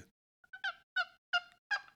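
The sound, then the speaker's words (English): A hen turkey yelp made on a hand-operated turkey call: a rhythmic run of raspy, nasal yelps, evenly spaced and fairly bright in pitch, with no talking over them. “Now, what this call says is there's you yelp on one side, it's a hen. You yelp on the other, it's a gobbler. So here's the hen.”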